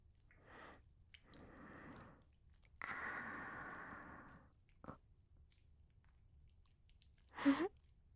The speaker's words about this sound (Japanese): おいしいです。ソーセージも。